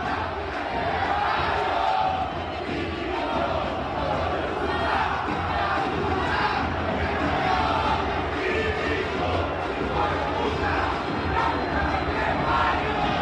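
Racing Club supporters fill El Cilindro stadium with a steady, unbroken crowd roar of chanting and shouting. It holds at a moderate, even level for the whole stretch.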